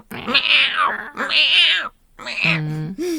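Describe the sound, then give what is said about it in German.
A person's voice imitates an old cat's meows with a few drawn-out, wavering, nasal cries separated by short gaps, fairly loud and with no other sounds. “Und die hat ja auch so miaut wie eine alte Katze. Ne? Ja. Die hat ja wirklich immer so”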